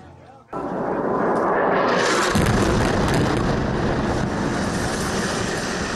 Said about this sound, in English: That was a huge blast just a short time ago right near our news camera that staked out on a rooftop.